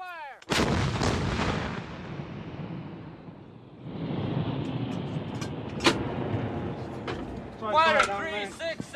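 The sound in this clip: Artillery gun fired on command: one sudden, loud blast near the start that rolls into a long, rumbling decay, followed later by men shouting orders.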